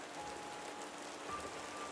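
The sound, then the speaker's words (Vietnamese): Heavy rain pouring in a steady, dense hiss of countless drops, continuous and even throughout with no voices or breaks. “Trời mưa nên hai người không hề bị phát hiện. Tiếng mưa to đến nỗi đi kế bên nhau mà còn không nghe thấy tiếng bước chân.”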